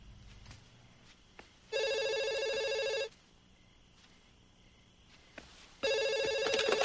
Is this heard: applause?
no

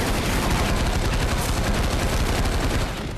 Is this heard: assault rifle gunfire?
yes

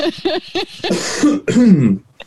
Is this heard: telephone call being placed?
no

